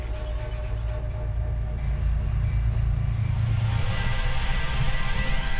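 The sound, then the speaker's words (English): A passing train gives a steady, loud rumble with a faint hum, holding an even level throughout without distinct separate events. “That is my train.”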